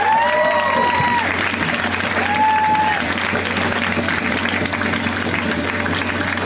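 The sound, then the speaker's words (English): An audience applauds a comedian coming on stage: dense, steady clapping with cheering that holds at an even level throughout. “So much pride for this next comic. Let's hear it right now for Jeff Wattenhofer. You guys give it up for Jeff!”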